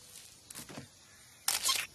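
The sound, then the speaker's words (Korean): Camera shutter clicks, two soft, brief bursts about a second apart, faint against near silence. “와, 카메라, 카메라, 카메라. 어? 카메라야. 찰칵. 어, 되잖아.”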